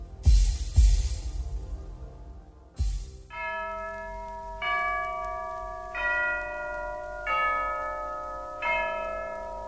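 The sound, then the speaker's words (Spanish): Church bells toll in a slow, evenly spaced series of strikes, each ringing out with long, sustained overtones, at a fairly quiet level. “Ya doblan las campanas.”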